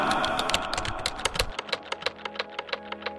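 Keyboard typing as someone writes text: many quick, crisp keystrokes tapping in an uneven rhythm. Some low background noise sits under the first half, then the clacks continue more cleanly.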